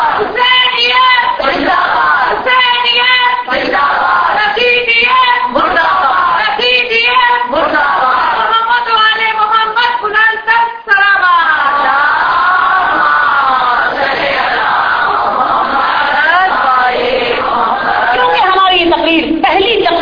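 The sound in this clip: A large crowd chants a slogan in unison in response to a speaker at a religious gathering on Husayn ibn Ali and Karbala. Many voices sound together, loud and sustained, in rhythmic surges.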